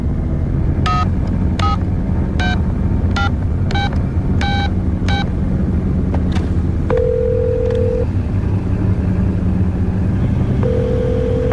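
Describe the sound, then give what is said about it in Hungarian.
A telephone is dialed to call an apartment: a quick series of touch-tone beeps, then two longer steady ringing tones, all over a low rumble. “Hívjon fel. Hívja a lakását. Rajta.”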